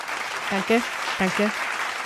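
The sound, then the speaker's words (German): Applause for two performers trading jokes, a steady, moderate wash of clapping with short bursts of spoken voices cutting in over it. “Das hat echt wirklich einen Applaus verdient für uns beide.”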